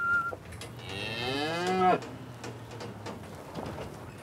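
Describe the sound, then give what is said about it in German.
A breeding bull moos inside a livestock trailer: a single long, deep, droning bellow, with a faint short tone just before it and low rustling afterward. “Hoffentlich bleibt der Bulle ruhig.”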